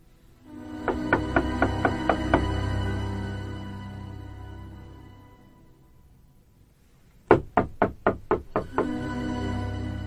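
Knocking on a door comes in two rapid series of several sharp raps each, separated by a long quiet stretch; the second series is louder than the first.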